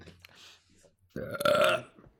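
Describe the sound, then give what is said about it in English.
A single loud, throaty burp lasting under a second follows a stretch of faint, low background sounds. “Was that a burp I heard?”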